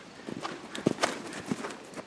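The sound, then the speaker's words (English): Hoofbeats from horses cantering around a large outdoor riding ring at an equestrian team headquarters, ridden side-saddle: faint, irregular clip-clop thuds with a few sharper strikes standing out. “A small crowd watches as eight riders canter around a large outdoor ring at the U.S. Equestrian Team headquarters.”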